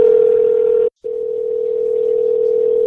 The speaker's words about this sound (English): it makes dialing noises. This is so cool.